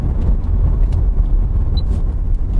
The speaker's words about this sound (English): Okay, I'm going to put the recorder down now and concentrate. Excuse me. I am driving, you know.